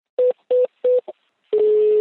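Phone dialing beeps as a number is keyed in for a call: three short, even tones and a brief blip, then a long steady tone that follows alone.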